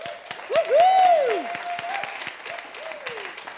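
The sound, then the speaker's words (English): An audience applauds with a steady patter of clapping, while a cheering voice rises and falls in drawn-out whoops over it. The clapping continues at a moderate level to the end. “Let's give him a hand.”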